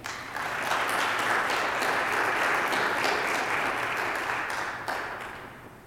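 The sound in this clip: A church audience applauds to welcome a monsignor back to St. Angela Merici Parish in Florissant, Missouri. Steady clapping swells quickly, holds for several seconds, then tapers off.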